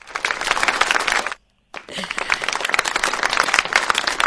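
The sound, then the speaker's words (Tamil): An audience applauds a performer with dense, crackling clapping and voices mixed in. The clapping cuts out briefly near the middle, then resumes and stays steady to the end. “கைத்தட்டல் கொடுத்துடலாம் உங்களுக்கு”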